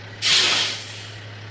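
Air brakes on an eighteen-wheeler truck release one sharp hissing burst that swells quickly and then fades over about a second, over a low steady hum.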